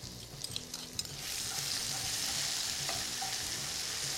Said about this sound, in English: we are going to wait until it sizzles. I am also going to add in 2 bay leaf and 2 to 3 red chilies, dried ones, along with our crushed ginger, garlic and chili.